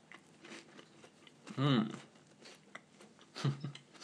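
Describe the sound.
Someone chews and bites into a piece of cheese, making soft, irregular mouth and crunch sounds broken by two voiced, appreciative hums.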